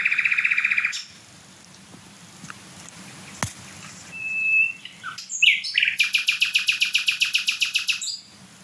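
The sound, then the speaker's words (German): A small songbird, smaller than a blackbird, sings very loudly: a shrill high trill opens, then quiet, a sharp whistle, and a rapid run of piercing, evenly spaced notes ending in a fast rhythmic trill. “Und ich meine, der Vogel ist kleiner als eine Amsel. Das ist, auch wenn jetzt kein anderer Vogel singt und so weiter, mega laut trotzdem.”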